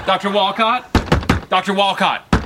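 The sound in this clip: A few sharp knocks on a door, heard between and beneath people talking.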